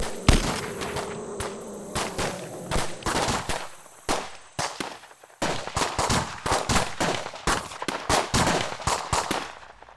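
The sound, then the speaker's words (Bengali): Rapid gunfire in a firefight, many sharp cracking shots in irregular bursts and quick clustered volleys, loud and continuous, with no voices. “ওরা শুনতে পেয়েছে গুলি ছুড়বে ভয় নেই bullet we ঢিপে ভেদ করে আমাদের ছুতে পারবে না”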